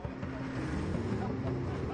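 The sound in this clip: A vehicle engine rumbles as it drives onward, a steady low drone with faint humming harmonics that stays even in level throughout.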